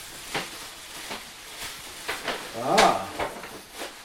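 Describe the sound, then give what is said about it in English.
Wrapping paper crinkles and tears as a wrapped gift is opened, coming in short, scattered bursts of crisp rustling between quieter moments, with a voice briefly heard near the middle. “I'm unwrapping it so that we can hear.”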